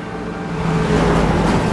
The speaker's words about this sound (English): A truck drives past him, hauling a load of timber.